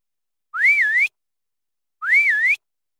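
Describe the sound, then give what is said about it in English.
A person whistling two identical short phrases, separated by a pause. Each one swoops upward, dips briefly, then rises again to a clear, bright end. “Whistle.”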